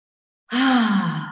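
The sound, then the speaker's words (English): A single deep breath is exhaled as a voiced sigh during a guided breathing exercise. It begins abruptly after silence, is loud and breathy, and eases off slightly over about a second. “I just want you to exhale. Let's just do a deep breath all together,”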